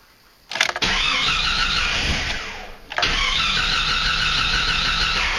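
A car engine cranks and fires, running loud and steady, then is shut off briefly before firing back up and settling into a strong, even idle.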